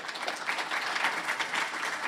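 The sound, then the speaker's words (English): A church audience applauding its leadership, with dense, continuous clapping at a steady loudness throughout and no talk over it. “Just clap for the leadership of this church. Just amazing leaders. Come and clap for them.”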